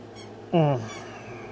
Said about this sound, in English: I know every time I start to talk, he's gonna fucking squeak that goddamn toy again.